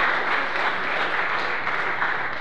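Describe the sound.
Audience applause, a dense, even wash of clapping that stays at a steady level from start to finish with no voices standing out.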